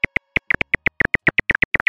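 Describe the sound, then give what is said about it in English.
Slowed into human hearing range, a silver-haired bat's echolocation call gives many rapid, sharp chirps, some in close pairs, in a quick and slightly uneven rhythm over clear silence. “This is a silver-haired bat.”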